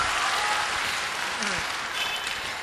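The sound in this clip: Audience applause for a question at a talk: dense, continuous clapping from a crowd, fairly even and unbroken from start to finish.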